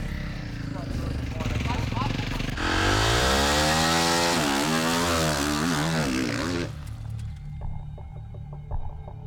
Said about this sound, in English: Riders making their way to the grid.